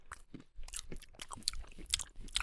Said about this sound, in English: is eating a mouthful of mixed nuts and dried fruit